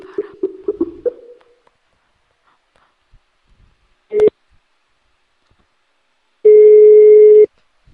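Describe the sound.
A telephone call tone sounds on a prank call to a hotel. A few short faint blips come first, then a brief tone burst, and after a pause a steady, mid-pitched electronic tone holds for about a second.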